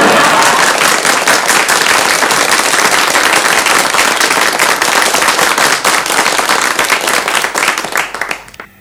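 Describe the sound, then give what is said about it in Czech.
Loud, dense applause from an audience of relatives at a Brno event, a thick continuous patter of many hands that holds steady for most of its length before thinning and fading out at the end. “Myslím, aby se diváci nenechali mýlit tím velkým potleskem, to jsou sami mi příbuzní tady”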